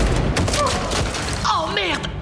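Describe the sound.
Gunfire in a video game: dense bursts of shots blur into a continuous crackling barrage, with people talking over it throughout.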